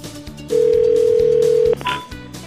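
A telephone dialing out to call someone: a steady, pure tone holds for just over a second over low background sound, then cuts off into a few brief beeps.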